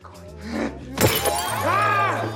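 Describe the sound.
Glass wine bottles smashed: a sharp, loud crash of shattering glass bursts out midway, among voices and a low steady tone.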